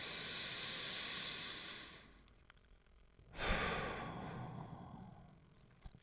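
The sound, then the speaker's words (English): A deep breath drawn in at the close of a guided sleep meditation: a long, breathy rush of air, then a brief lull and a second, stronger breathy swell that slowly fades. “You might want to stretch yourself or have a deep breath in.”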